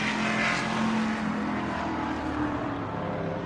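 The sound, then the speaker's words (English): Race cars racing uphill during an afternoon race, a steady, droning engine roar that stays strong and eases off slightly toward the end, with no talk. “That's uphill. What you're hearing is them racing uphill.”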